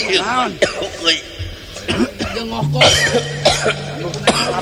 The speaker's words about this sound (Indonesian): Ngeganggu pisan nya batuk aing duh.